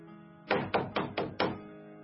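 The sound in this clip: Knocking sounds on a dressing-room door in a theatre at night: five dull, evenly spaced thuds over a steady low background hum.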